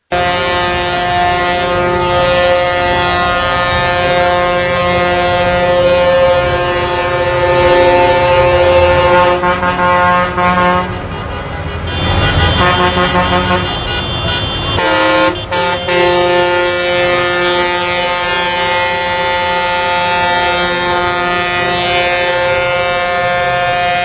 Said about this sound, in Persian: همین جوری هم دارن بوق میزنن، بوق بوق بوق بوق بوق